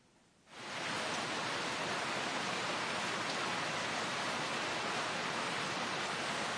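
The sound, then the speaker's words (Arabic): Heavy rain falling: a dense, steady hiss of rain rises abruptly after about half a second, then holds at an even loudness to the end, with no voices. “تساقط المطر.”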